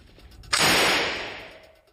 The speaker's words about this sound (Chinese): 这是经典的 MP40 式德国冲锋枪。